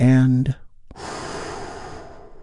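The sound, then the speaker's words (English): A long, deep breath is drawn in slowly after a brief voiced sound. It is a steady, breathy rush of air that holds for over a second and slowly fades. “Let's take a big, deep, healing breath with me right now.”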